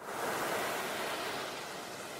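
Sea waves wash onto a sandy beach as a steady, broad rushing roar that holds an even loudness throughout, with no other sounds standing out.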